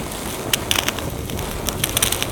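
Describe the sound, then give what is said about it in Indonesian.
Fire blazing on firewood in a trench: a steady, rushing roar with scattered sharp crackles and pops throughout. No talking. “Dan raja pun memerintahkan agar menyalakan api pada kayu bakar tersebut. Nyalakan apinya!”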